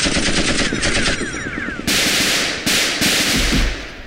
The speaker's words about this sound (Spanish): Aquí estoy disparando.